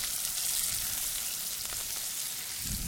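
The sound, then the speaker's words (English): Vegetable hash of poblano and peppers sizzles as it is poured over a caveman T-bone steak in a skillet, giving a steady, dense hiss and crackle throughout with no talk. “we'll grab the skillet and pour this vegetable hash over the steak.”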